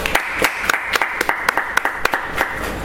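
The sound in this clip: Sparse audience applause welcoming a speaker at a training presentation, with separate sharp claps scattered in a loose, uneven rhythm rather than a dense roar.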